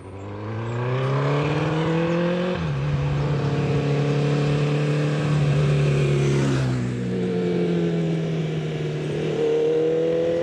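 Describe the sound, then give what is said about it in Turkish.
An older car engine that still needs plenty of work runs with a deep, solid rumble while shifting through first and second gear. The steady drone climbs in pitch, drops at a gear change, then climbs again, with another dip later on. “Titreşimler çok hoş ve tok. Bunun üzerine yapılacak çok iş var ama en azından çalışıyor. Hem de birinci ve ikinci vitese gayet güzel geçiyor.”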